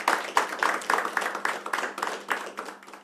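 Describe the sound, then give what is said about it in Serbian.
An audience in a kafana claps for a Balkan singer and her band, a quick, fairly regular run of many sharp hand claps at steady loudness, with a faint low hum underneath. “koji ćemo počastiti naravno jednim velikim aplauzom”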